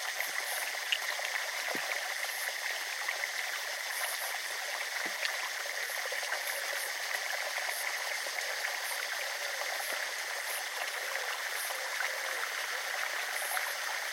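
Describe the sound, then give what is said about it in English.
Soft trickling and swirling of water around ankles, faint and steady, with a few small drips. “Water spooling around our ankles.”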